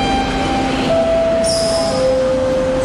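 A train pulls into a station with a steady rumble under a clear electric whine that steps down in pitch a couple of times, and a thin high squeal joins partway through.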